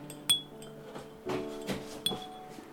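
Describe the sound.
A spoon clinks against a glass as a lavender scent mixture is stirred, giving a few light, irregular taps with soft scraping between them, faint throughout.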